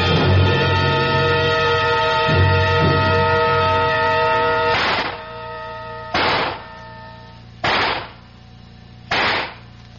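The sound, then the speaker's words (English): Gunshots ring out at a shooting range, four sharp, loud reports spaced roughly a second and a half apart, with music playing under the first and fading beneath the later shots. “Thought I'd find you down here in the range. Good cluster, except for that one shot off to the left. Probably a faulty cartridge.”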